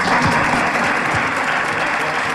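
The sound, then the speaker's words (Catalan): Loud, continuous audience applause for José Mourinho at a Real Madrid event, a dense and even wash of clapping that holds steady for about two seconds without talk. “Un aplaudiment per Mourinho, que ha demanat ell, que ha començat a aplaudir.”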